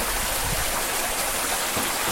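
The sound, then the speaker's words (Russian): Babbling running water flows in a steady, unbroken wash of bubbling and splashing, with no voices over it. “вот вода журчит, я запишу фон тогда.”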